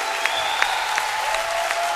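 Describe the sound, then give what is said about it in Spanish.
Audience applause on a Spanish-language show, greeting the singer Malú. Dense, even clapping holds at a steady level with a few slightly sharper claps standing out. “fuerte aplauso”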